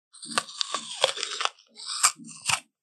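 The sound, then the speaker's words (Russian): Crisp crunching of an apple being bitten and chewed: a long run of loud, juicy crunches, a brief pause, then a couple more sharp bites. No voices are heard. “Яблоко.”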